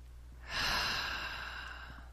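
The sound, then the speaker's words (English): One deep, audible breath, heard alone. The soft, airy rush starts abruptly after a moment of quiet, then tapers gently over about a second and a half. “Okay, deep breath, please.”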